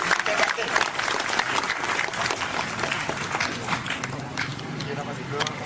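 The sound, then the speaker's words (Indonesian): Audience applause for a preacher at a live event: dense, continuous clapping that stays loud and steady throughout, with some crowd noise mixed in. “Tepuk tangan untuk Ustaz Wijayanto.”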